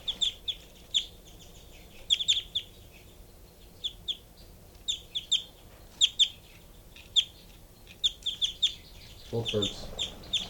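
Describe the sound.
Two birds calling: sharp, high chirps come in many short, irregular bursts over a faint low background, with a louder, lower burst of noise near the end.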